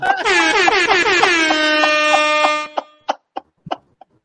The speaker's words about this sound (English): this is getting a rap air horn